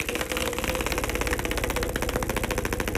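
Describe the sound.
A prize wheel spins, its pointer ticking in a fast, steady stream of many clicks that keeps an even rhythm throughout.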